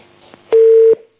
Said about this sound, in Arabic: الاتصال قطع.